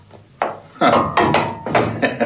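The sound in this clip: A metal shovel clatters against a door, producing several sharp, ringing clanks and knocks in an uneven sequence, each fairly loud with a brief metallic ring, and no talk over it.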